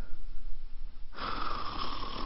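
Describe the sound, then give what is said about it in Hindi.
Snoring from a woman asleep on a chair with both feet up: a raspy, steady snore that swells in partway through and holds, with no talk around it. “माँ कुर्सी पे दोनों पैर ऊपर किए खराठों वाली नींद ले रही है।”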